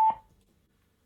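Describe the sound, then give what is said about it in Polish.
A Bluetooth speaker gives a single short, mid-pitched electronic beep when its TWS button is pressed. The tone is brief and clear, fades quickly, and is heard alone. “I teraz następnym przyciskiem jest przycisk TWS i TWS wydaje taki dźwięk, jak go się naciśnie.”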